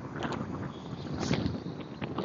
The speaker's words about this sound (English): I apologize if there's a wind there. I'm walking outside while we're on vacation, so it's nice to be able to do a podcast when I'm walking around and enjoying the view.